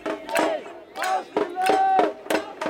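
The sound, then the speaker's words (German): Protesters at a rally in front of the Federal Chancellery in Berlin shout chants in unison, loud rhythmic bursts of crowd voices separated by brief pauses. “Während Olaf Scholz den argentinischen Präsidenten Javier Milei empfängt, sind die Protestrufe vom Vorplatz her laut zu hören.”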